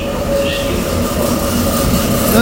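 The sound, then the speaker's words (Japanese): A train arrives at a station with a loud, steady rumble of rail noise that holds evenly through the whole stretch, a faint high tone running above it. “またすいません、電車が来ました。”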